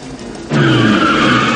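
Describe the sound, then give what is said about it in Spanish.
A car is driven at full speed toward a large window, tires skidding. A sudden loud surge of squealing tires and engine roar starts partway in and holds steady and harsh to the end. “Nick dirige el coche a toda velocidad hacia el ventanal.”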